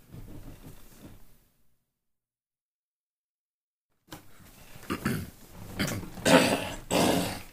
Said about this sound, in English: gotta get this phlegm out while we're still cutting